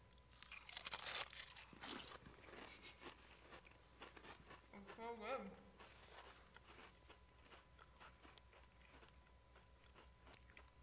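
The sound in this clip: Crunching of salt and vinegar and ranch potato chips being bitten, a few sharp, crisp bursts early on, then softer chewing, with brief voice sounds partway through.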